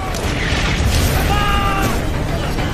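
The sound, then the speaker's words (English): Artillery shells exploding in a massive German bombardment on a front line, heard as a dense, continuous roar of overlapping blasts with no distinct separate booms and a steady loudness throughout. “Three and a half million German shells are fired in just 5 hours.”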